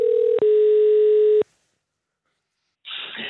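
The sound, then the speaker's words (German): A telephone dial tone as a call is placed to an organization in Switzerland: a steady, mid-pitched tone with one brief break, then an abrupt cutoff, silence, and a burst of line noise at the end. “Zurück daheim, am nächsten Tag, habe ich im Schweizerischen Dachverband Lesen und Schreiben angerufen.”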